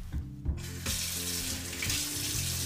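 Water runs from a kitchen tap to rinse a cup of lentils. After a brief quieter start, a steady, full splashing hiss sets in and continues evenly to the end.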